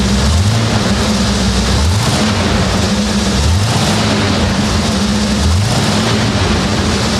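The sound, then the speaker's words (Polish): A car engine running after starting right away following a long period standing idle: a loud, steady, low droning hum with broad rushing noise and no talking. “pracuje pięknie i odpalił od razu. Myślę, że nie najgorzej zapalił, jak po takim czasie stania.”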